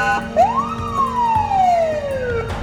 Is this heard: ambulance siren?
yes